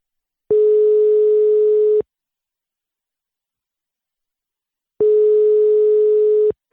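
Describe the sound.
Telephone call tone on an outgoing line: two long, loud, steady beeps of about a second and a half each, separated by a few seconds of silence.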